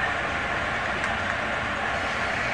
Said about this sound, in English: And another Ravina train on the other side, going in the other direction.